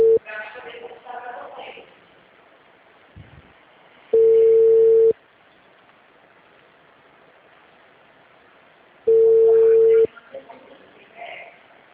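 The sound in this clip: Two long, loud busy-signal tones sound on a telephone line after a dropped call, several seconds apart. Muffled voices and hissing line noise fill the gaps before, between and after them.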